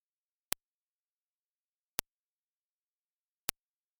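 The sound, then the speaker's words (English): Three sharp, evenly spaced clicks, about one and a half seconds apart, mark the start of each day in a data sonification of bottom pressure records from the 2015 Axial Seamount underwater eruption, with silence between them. “The daily clicks will sound like this.”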